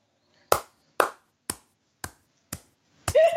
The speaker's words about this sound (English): This is the sound of me clapping.